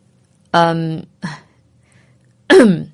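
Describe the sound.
A voice performs a light, deliberately fake cough, made up of three short voiced throat-clearing bursts. The first is longest, a brief faint one follows, and the last comes after a pause.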